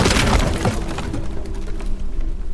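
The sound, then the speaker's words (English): Wooden floorboards crack and give way underfoot, a loud splintering crash at the start followed by sustained, noisy crackling and crumbling of broken wood. “Beneath me, I felt the floorboards crack and give way before I even processed what was happening.”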